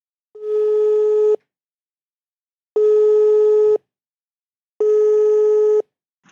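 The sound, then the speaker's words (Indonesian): Ringback tone of an outgoing phone call: three long, steady electronic beeps, each about a second, separated by short silences, with no voices. “Aku teleponin dulu.”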